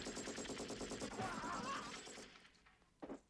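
Machine-gun fire from a belt-fed weapon: loud, rapid bursts in a steady, tight rhythm that run for about two seconds, then cut off and leave a short quieter tail with one brief sharp knock.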